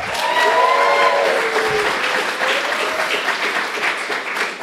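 Audience applause breaks out for a co-host at a live recorded gathering, a continuous wash of many hands clapping that stays fairly even and eases slightly toward the end.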